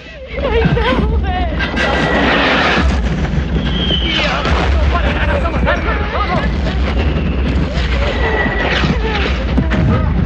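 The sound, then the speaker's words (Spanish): Explosions from the bombing of a hospital blend into a constant, loud, booming din while people shout and call out throughout, with no quiet gaps. “Bombardean el hospital. ¡Al suelo! El médico tira a la chica al suelo. Los sanitarios sacan como pueden a los heridos en medio del fragor de las explosiones.”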